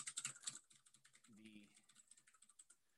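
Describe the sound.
Typing on a computer keyboard: many quick, light key clicks in an uneven rhythm, faint throughout, with a brief voice in the middle.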